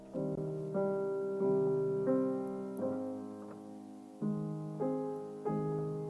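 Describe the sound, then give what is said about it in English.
Brahms' Waltz, Opus 39, slowed down, lowered in pitch and simplified to calm dogs: soft, keyboard-like notes and chords sound one at a time in a slow, gentle rhythm, each ringing and fading before the next. “Spector has developed a system where she starts with a piece of standard classical music, like Brahms' Waltz, Opus 39. Then she slows it down, lowers the tone, and simplifies the notes until it sounds something like this.”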